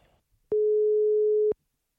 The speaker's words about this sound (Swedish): Du, vi provar ringer igen. Vi tar Jalen. Vi tar Jalen först.